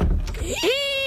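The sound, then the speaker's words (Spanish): A household door creaks with a single squeal that rises in pitch and then settles into a sustained, thin whine after a short low rumble. “Si tu puerta suena así,”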